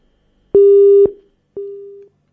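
A telephone busy tone sounds after a dropped call: two steady, mid-pitched beeps, the second one shorter and quieter, each followed by silence.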